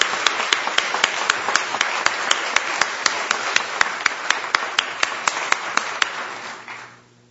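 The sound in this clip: Rhythmic clapping welcoming a group from Yankton, South Dakota: many sharp, even claps at a brisk, regular beat that hold steady for several seconds before fading out at the end.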